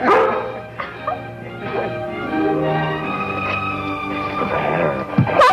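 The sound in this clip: A dog barks and yips in a few short, sharp bursts, some with a whining edge, set against sustained steady tones underneath.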